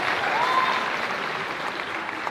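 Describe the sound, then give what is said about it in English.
Steady applause from a group of people clapping, a dense, even patter of hand claps holding at a constant moderate level throughout with no voices. “when you start that clapping, you quickly realize that you gotta keep it up.”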